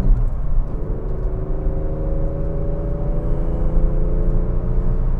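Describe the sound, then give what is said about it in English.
A Porsche accelerates to overtake other traffic, its engine a loud, continuous deep rumble with a whirring tone that climbs gradually in pitch as it speeds up, with no voices. “Okay, we're going to pull the Porsche asshole move. Get in front of these people.”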